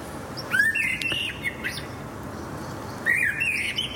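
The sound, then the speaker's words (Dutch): An early blackbird sings in a street, two bright phrases of whistled and chirping notes separated by a pause, over a steady background hiss. “Die geniet van een vroege merel in haar straat.”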